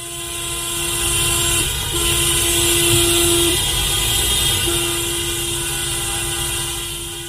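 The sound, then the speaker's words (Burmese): Car horns honking continuously in a street protest, a steady, loud, held tone in long blasts broken by brief gaps, over a constant rumble of traffic. “ကားဟွန်းတန်တွေကိုအဆက်မပြတ်တီးကြတာ။”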